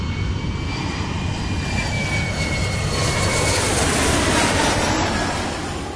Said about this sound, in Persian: باید به اطلاعاتون برسونم که مشکل فنی ما برطرف شده و ما دوباره به سمت سرزمین روشنی پرواز میکنیم.